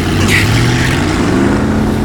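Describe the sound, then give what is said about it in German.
Motorboat engine at full throttle as it chases a lifeboat toward a harbour, a loud, steady, rough roar with a deep droning hum underneath throughout. “Achtung, festhalten. Ich gebe Vollgas.”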